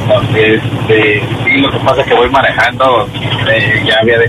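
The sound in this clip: Car engine and road noise while driving, carried over a phone line as a steady low drone that continues beneath constant talking.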